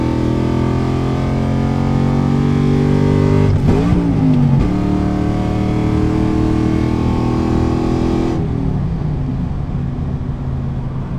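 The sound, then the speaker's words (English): A car engine accelerates hard from third gear at 4500 rpm with the windows up and the throttle floored, a loud, steady droning roar. The drone breaks briefly early on at a missed gear shift, then the engine pulls on strongly. “Haven't done this with the windows up yet. Fourth gear, 3500 right now. Third gear, 4500. Foot down.”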